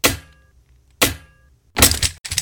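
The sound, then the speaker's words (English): Four hard cracking blows as a big stick smashes a cage, the first two sharp and separate with short ringing tails, the last two rougher and splintering, coming closer together. “Ah, you mean you can smash things with a big stick. Well, it worked.”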